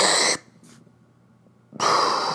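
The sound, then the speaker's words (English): An inhaler gives a short, breathy hiss, followed after a quiet gap of over a second by a second similar burst of hiss. “That was my inhaler.”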